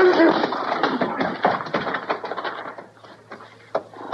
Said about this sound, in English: Lay a man's head open, pistol whipping him like that.